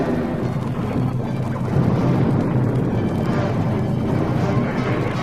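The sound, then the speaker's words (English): A planet exploding, with tremors and cracking ground: a dense, continuous low rumble with crashing and crackling texture that stays loud and churning throughout. “As my father had predicted, Krypton had become one gigantic bomb. Tremors shook the Earth, huge cracks riffled the surface, gaping holes suddenly yawned.”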